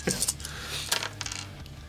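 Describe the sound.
Dice rolling on a table during a tabletop game: a quick run of light, hard clicks and clatters over a steady low hum.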